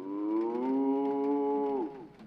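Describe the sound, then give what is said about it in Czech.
A long, mournful moo from a cow-like creature standing in a garden, one sustained low call of about two seconds at a steady pitch that drops briefly at the end, with no other sound. “Na zahradě mi stojí kravohorský s lebkou na hlavě a bučí. Ach, jak trýznivě bučí.”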